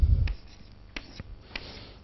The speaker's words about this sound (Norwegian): Men vi skriver den likevel. Ja. Vi bare skriver svaret.